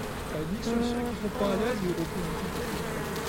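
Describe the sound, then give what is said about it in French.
Honeybees buzzing at an opened beehive, a dense, continuous droning hum that fills the whole clip, with people talking over it. “On retrouve un paquet d'abeilles. En fait, c'est magnifique, mais ça fait peur.”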